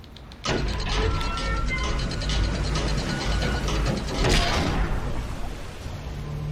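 Geared mechanism turning a globe in a video game: a steady, loud ratcheting and grinding of gears that runs without pause for about six seconds and swells slightly near the end.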